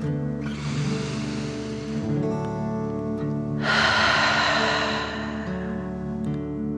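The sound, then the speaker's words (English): Deep "dragon breath" breathing in and out during a guided breathing exercise: two long, rushing, breathy gusts separated by a short pause, heard over a steady sustained musical drone. “Again, deep dragon breath in and out.”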